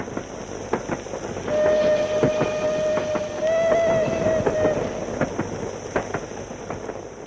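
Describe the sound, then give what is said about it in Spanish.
A train heading to a small village north of Prague clatters along with a steady rhythmic clickety-clack of wheels. A long, sustained horn blast sounds through the middle, then the clacking continues alone. “El tren nos lleva a Rostoki, un pequeño pueblo situado al norte de Praga”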